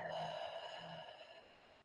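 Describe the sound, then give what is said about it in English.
A group exhales together through the mouth during a guided breathing exercise: one long, soft breath out that fades over about two seconds above a faint sustained tone. “let's everybody take a big breath in together. And exhale through the mouth.”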